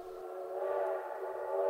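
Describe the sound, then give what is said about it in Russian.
A children's railway train horn on a historic northern route sounds its first greeting signal of the season, a steady harmonic tone held through the whole clip with a faint low rumble underneath. “На Малой Октябрьской железной дороге дан первый приветственный гудок в новом юбилейном сезоне”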